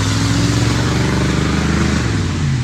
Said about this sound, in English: That's a loud engine.